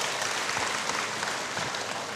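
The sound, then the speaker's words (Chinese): Warm audience applause at a talk presenting a Buddhist textbook series, a dense, continuous wash of many hands clapping at an even, fairly loud level, with no voices over it. “我们再次给他热烈的掌声， 谢谢大家。”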